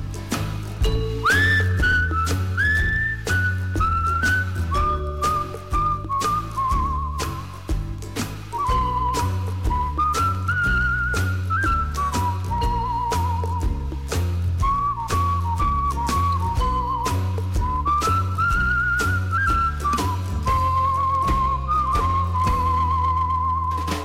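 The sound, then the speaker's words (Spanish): Melodic whistling carries the tune over a steady rhythmic music backing. The whistled line steps up and down through held and gliding notes, loud and continuous throughout. “os dejamos con este maravilloso tema repleto de silbidos.”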